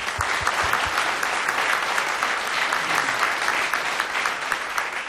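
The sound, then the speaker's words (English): Audience applause at a concert venue: dense, steady clapping fills the whole stretch at an even level, with a few low thumps near the start and no voices standing out. “So let's start with another big round of applause for you guys.”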